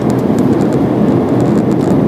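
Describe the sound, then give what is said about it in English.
Deep, continuous rumble of a truck passing close by on a road: a loud, steady engine and tyre roar heavy in the low end, holding even without clear rise or fade across about two seconds, with no voices. “Oh, I'm about to get my nose shortened by a truck if I'm not careful.”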